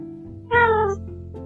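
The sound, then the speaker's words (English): A big black four-year-old male foster cat gives a single short, clear meow that rises out of a steady low background hum. “He's 4 years old, and he's my first foster cat.”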